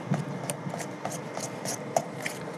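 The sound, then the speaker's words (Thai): Batter being stirred by hand before the mixer is used, blending a sweetened mixture. A steady series of soft scraping, rubbing strokes repeats at an even pace. No one speaks. “ยังไม่ใช้ขออนุญาตยังไม่ใช้เครื่องผสมนะครับเดี๋ยวขออนุญาตกวนสักนิดนึงให้เนื้อเขาเข้ากันก่อนนะครับ”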